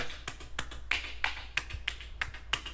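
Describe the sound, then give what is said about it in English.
About eight sharp slaps of buttocks being clapped hard in an ASMR video, fairly quiet, evenly spaced smacks in a steady rhythm with no talk. “Dude, this bitch actually fucking claps her ass majorly hard. It's fucking crazy. It's too loud.”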